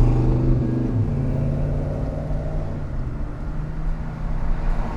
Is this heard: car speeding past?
yes